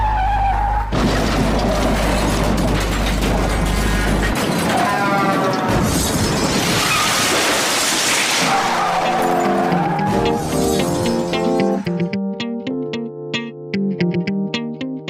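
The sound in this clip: A car skidding with loud tire squeal, mixed with crashing and shattering sounds, a continuous dense roar throughout that gives way to steady ringing tones near the end.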